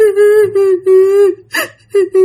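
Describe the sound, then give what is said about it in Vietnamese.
A voice imitates a little boy crying: a few loud, drawn-out whimpering wails at a steady mid pitch, broken by a sharp gasping breath and followed by two shorter sobs. “thằng nhỏ thì đang khóc”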